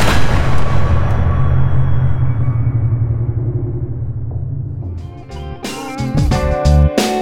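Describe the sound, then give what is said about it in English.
A few sharp gunshots crack out near the end, after a loud low rumble fades, as riders shoot the wounded and dead around a wagon whose team has been unhitched. “Clouston's riders systematically and coldly shot both the dying and the dead.”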